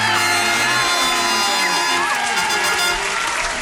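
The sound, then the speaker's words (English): A studio audience cheers and whoops in a dense, loud roar of clapping and shouts that holds steady for the whole stretch. “The full fanfare. Welcome. Thank you. You shouldn't have. Oh, blessings to you. The studio audience couldn't hold themselves back.”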